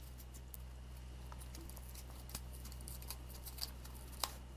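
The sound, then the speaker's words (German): Scissors cutting a sponge into three equal strips give a few faint, sparse snips and soft scratchy ticks over a steady low hum, with no talking. “Den Schwamm zerschneidest du jetzt in drei gleich große Streifen.”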